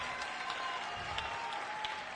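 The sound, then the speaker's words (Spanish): Faint audience applause at a comedy cabaret show, soft, even clapping that runs steadily through the short clip without voices on top. “Un aplauso para las cabareteras mexicanas, ¿cómo de que no?”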